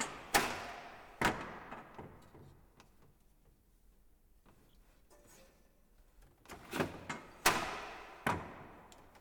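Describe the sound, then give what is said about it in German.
Wooden clacks and thumps from a 13th-century loom as the pedal is pressed and the shuttle is shot through the shed: two sharp knocks, a quiet stretch, then a cluster of several more. “Webstuhl aus dem 13. Jahrhundert. Pedal drücken, Kettfäden spreizen. Weberschiffchen durchs Webfach schießen.”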